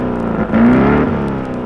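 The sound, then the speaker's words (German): A BMW racing machine's engine warms up for the final practice laps, giving a steady harmonic drone. Partway through, the revs swell briefly and slightly higher, then the engine settles back into an even, continuous hum. “Die BMW von Max Deubel und Emil Hörner läuft für die letzten Trainingsrunden warm.”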